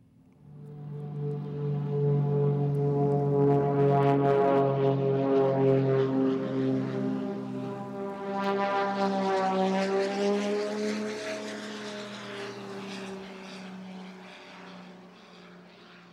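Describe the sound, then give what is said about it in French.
Propeller fighter planes chasing each other above a garden, a loud sustained harmonic engine drone that swells, dips in pitch midway and slowly fades. “Alors cette scène, je l'ai vécue, ça se passait au-dessus de notre jardin. Deux chasseurs se pourchassaient.”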